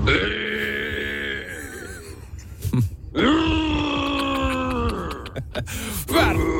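A person imitates a buffalo with loud, drawn-out, groaning bellows, two long moaning calls and then the start of a third, each rough and throaty with a wavering pitch.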